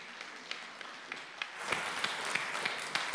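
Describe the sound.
Church audience applauding as a visiting preacher comes up to minister: a few scattered faint claps at first, then fuller applause breaks out halfway through and keeps going with sharp individual claps standing out.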